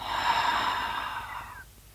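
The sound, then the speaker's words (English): A deep exhale out through the mouth, one soft, steady breath of airy rushing that lasts under two seconds and fades away at the end. “This time out of your mouth, exhale.”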